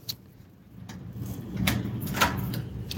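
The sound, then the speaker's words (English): An apartment door is opened after a neighborhood walk, giving a few faint clicks and rattles over a quiet, low background hum. “Now, we will open my door.”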